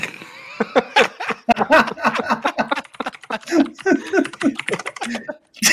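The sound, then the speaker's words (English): Typing on a computer keyboard to log in: quick, irregular clicking keystrokes mixed in with people talking casually throughout. “Who are you typing? I'm trying to log in.”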